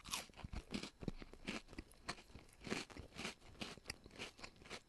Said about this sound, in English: So I've unwrapped the green tea Kit Kat from its wrapper. It's melted a little bit. Let's have a break today.